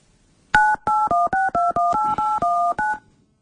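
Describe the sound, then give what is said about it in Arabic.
Touch-tone dialing of a mobile phone to call a rural commune head: a quick, even run of many short, bright two-note beeps with brief gaps, then silence. “نشوف الهاتف المحمول. نعم الهاتف ديال رئيس الجماعة القروية هاد الجماعة ديال تيوكا سي حسن شرود”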